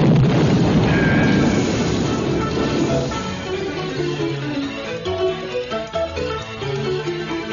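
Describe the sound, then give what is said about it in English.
A loud explosion bursts in with a broad, heavy boom at the start, then rumbles on and slowly fades over several seconds. “Look out! It's gonna explode!”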